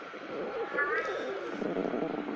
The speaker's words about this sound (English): My cat's yowling over here.